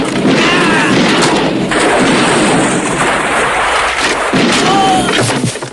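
Shotgun gunfire erupts during a film scuffle, a loud and dense barrage of blasts and crashing noise that continues for the whole clip.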